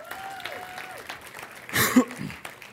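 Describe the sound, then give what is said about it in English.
Audience applause welcoming back UMO students comes as a short, loud burst of clapping after a brief stretch of quieter sound with a voice. “I also want to say welcome back to our UMO students. Guys, can we give them a hand?”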